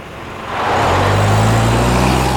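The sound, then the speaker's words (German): A jeep engine revs up and drives away, swelling from a low rumble into a loud, steady roar with a deep drone that climbs slightly in pitch. “Der Jeep! Der Betrüger haut ab!”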